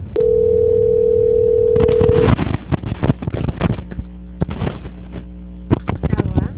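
A steady telephone line tone plays while a call is being transferred. It holds evenly for about two seconds, then cuts off into a jumble of clicks and line noise.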